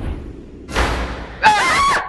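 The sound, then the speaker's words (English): A stuck door is slammed and then yanked, giving two loud, rough bursts of banging and rattling, the second harsher and more ringing than the first. “What the fuck? The door! It's stuck!”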